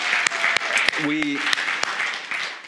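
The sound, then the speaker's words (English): A church audience applauds its mowing crew with a dense, continuous patter of clapping. A few sharp, louder claps stand out, and a brief voice briefly rises over the applause. “And so we're going to clap for you again, even though we just clapped for you.”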